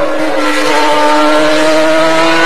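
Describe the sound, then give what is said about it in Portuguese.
Ayrton Senna's racing car accelerating on a wet track in the rain, a loud, continuous high engine whine held steady throughout. “Aí vem Senna puxa de um lado, acelera, puxa para a direita, Está chovendo”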